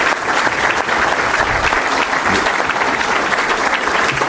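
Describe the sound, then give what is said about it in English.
Audience round of applause in tribute to police and citizens: dense, loud, continuous clapping that holds steady from start to finish, with no voices on top. “Policemen, citizens, everybody wants the same thing, ultimately. So why don't you give them a round of applause?”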